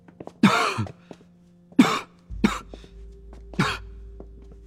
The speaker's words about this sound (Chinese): 空旷阴暗的石阶甬道，只有三个人的脚步声和林叔时不时的咳嗽声回荡